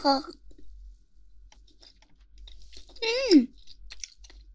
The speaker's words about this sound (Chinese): 好有嚼劲啊！怎么感觉跟其他地方都不一样？